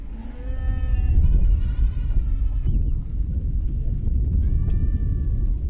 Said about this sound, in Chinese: 牲口就是我们的命，我们生活中需要的一切都要靠它们。